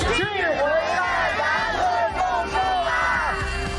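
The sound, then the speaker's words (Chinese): A crowd of volunteers gathers for a tree-planting event in the Hunshandake sandy land of Inner Mongolia, with many voices shouting and cheering together over a steady murmur of chatter. “刚刚给大家听到的是今年五一劳动节， 全国各地的志愿者齐聚内蒙古浑善达克沙地植树的事情。”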